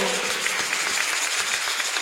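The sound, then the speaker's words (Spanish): Applause from a church audience for a man who has just appeared, a soft, fairly faint patter of scattered claps that continues evenly throughout. “Ah, démosle un aplauso, pues, que se apareció.”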